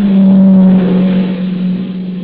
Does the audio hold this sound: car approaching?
yes